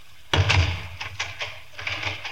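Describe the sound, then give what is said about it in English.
A room door shuts with a solid, bassy thud, followed by a few light, sharp clicks as it is locked. “You may leave the room and lock the door.”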